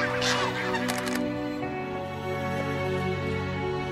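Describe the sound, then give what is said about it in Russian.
Flying geese honking: many harsh, nasal honks overlapping in a continuous chorus, with some sharper calls standing out early on. “забегает в воду навстречу летящим гусям”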